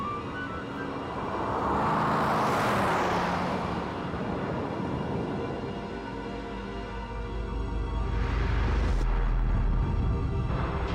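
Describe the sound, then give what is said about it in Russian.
Car driving through a city: a continuous road rumble and whoosh that swells and eases, with louder passing surges near the start and again toward the end. “Машина едет по городу.”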